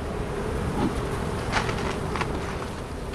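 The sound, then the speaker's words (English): Honeybees buzz around hives on the roof of a university plant sciences building, making a steady, fairly soft drone with a few louder passes as individual bees fly close. “On the roof of the university's plant sciences building, where Van Engelsdorp's team keeps its hives, project manager Karen Rennick”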